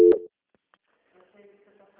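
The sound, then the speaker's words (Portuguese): Telephone tone during a call transfer: a single short, loud electronic beep, then near silence with only faint low sounds. “Vou transferir só um minutinho. Transferência.”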